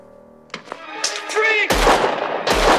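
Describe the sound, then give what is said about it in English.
Gunshots in a 1992 action film scene set in a hospital. A few brief tonal sounds come first, then loud, sharp blasts ring out. “He's just shooting people in a hospital?”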